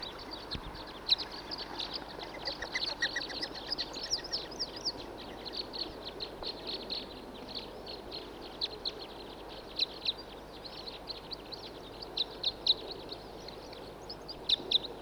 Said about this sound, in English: It's a male singing from atop of. Two males singing, one from each adjacent tree.